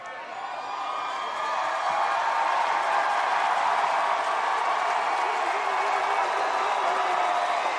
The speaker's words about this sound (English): He put his foot on the speaker, and the crowd is losing. They're going bonkers.